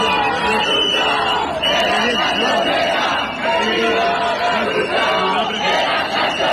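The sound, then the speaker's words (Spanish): Crowd at a housing protest in Albacete chanting together, a dense, steady mass of voices with repeated rhythmic phrases rising and falling at a constant loud level throughout. “Es el sonido, como decimos, de esas protestas. La protesta, la más numerosa, tenía lugar en Albacete.”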